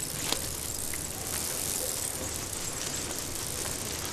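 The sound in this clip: A vehicle rolls through an open gate onto the yard of a used car dealer. A steady, rattling, rumbling noise with a dense hiss runs throughout at an even level.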